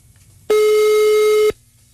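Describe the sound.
A telephone tone sounds as a call reaches voicemail: one loud, steady, mid-pitched electronic beep. It holds for about a second, then cuts off abruptly.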